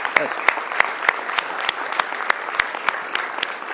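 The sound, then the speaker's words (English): A church audience applauding for five people after worship, many hands clapping in a sustained stream with sharp individual claps standing out, continuing throughout. “let's just give a round of applause for all five.”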